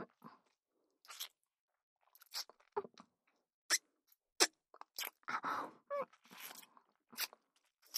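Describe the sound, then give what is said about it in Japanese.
Wet kissing and lip smacks come as many short, sharp bursts in an irregular rhythm, fairly faint, with quiet gaps between them. “いっぱいエッチのチューしちゃおうね”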